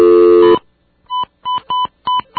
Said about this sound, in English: I'm dialing the number now.